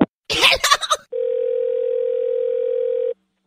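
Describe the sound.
A telephone dial tone sounds after a call is hung up: one steady, even tone holding for about two seconds, following a short burst of talk.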